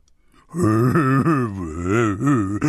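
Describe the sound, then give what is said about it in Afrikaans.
A storyteller's voice imitates a large hippo with a toothache crying. The wail is long and continuous, with repeated rises and falls in pitch, and it starts after a brief quiet moment. “draai sy eislike groot kop, flap sy ore, haal diep asem en toe toe begin hy huil.”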